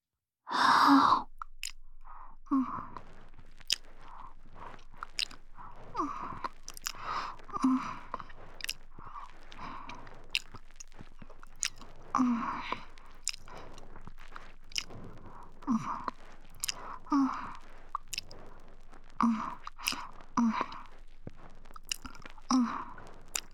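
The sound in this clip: Tasting and nibbling at an ear make a long string of soft, wet mouth clicks, smacks and light chewing sounds, with breathy sighs between them and no speech.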